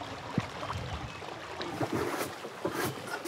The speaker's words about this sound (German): Ich hole gerade die Paddel. Paddeln auf der Ruhr.